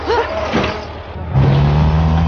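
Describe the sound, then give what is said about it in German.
A truck hauling melons drives past, its engine a steady low drone with a faint hum. The sound is quieter and rougher at first, then grows louder and more even partway through. “Das sogenannte Taxi war ein Laster, der Melonen transportierte. Schnell sprang sie auf das vorbeifahrende Fahrzeug auf.”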